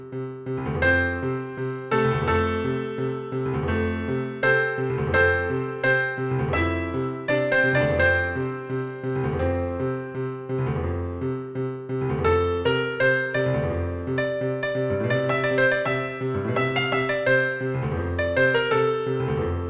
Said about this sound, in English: Dora la Cordobesita sings another saeta that sounds like this on the piano.